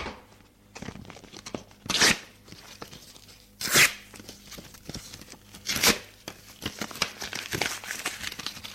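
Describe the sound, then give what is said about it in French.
A paper envelope is torn open by hand: a few sharp, crackling rips stand out over quieter intermittent rustling and crinkling of paper, with no voices. “Elle déchire l'enveloppe qu'elle tenait à la main.”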